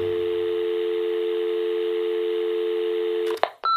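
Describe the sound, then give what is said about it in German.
A telephone dial tone holds steady and loud for over three seconds, then breaks off into a couple of short dialing beeps. “Sorry, da hatte einer angerufen.”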